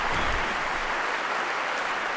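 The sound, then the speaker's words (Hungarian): Pilgrims applaud Pope Francis's catechesis in the Paul VI Hall, a dense, steady ovation of many hands at an even level throughout. “Tapsviharral fogadják a 6. pálteremben jelenlevő zarándokok Ferenc pápának a mai katekézisét, mai tanítását”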